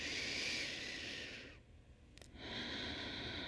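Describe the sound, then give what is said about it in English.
A deep breath drawn in during a guided breathing exercise makes a long, steady airy hiss. It fades briefly midway with a small click, then the rushing air returns. “Take another big breath in.”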